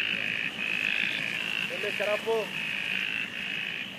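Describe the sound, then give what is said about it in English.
Frogs breeding at night in a bramble of branches make a continuous high trilling chorus. A few lower, bubbling croaks stand out briefly midway. “It's about 4:30 in the morning, and I'm pretty sure that this is the sound of a bunch of frogs breeding in a bramble of branches.”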